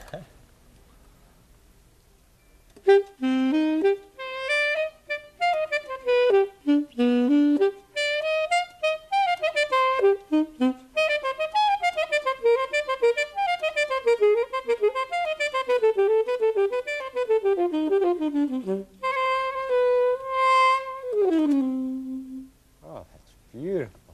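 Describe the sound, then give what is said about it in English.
Saxophone playing a flowing melody after a few seconds of near silence: a busy run of rising and falling notes, then a few longer held tones and a brief low note to close. “I'm really interested in what this saxophone would sound like if we went down into the caverns. Well, you just take it with us, and we'll be able to hear it. What's it sound like here? Well, it sounds something like this.”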